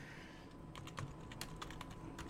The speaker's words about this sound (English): I can't type and talk, but I should be able to.